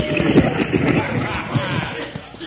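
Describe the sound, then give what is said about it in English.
Galloping horses pulling a stagecoach make a rapid, steady clatter of hooves over a low rumble, loud and continuous throughout. “All right, boys, crowd that stage boots. Oh, down on those horses, driver.”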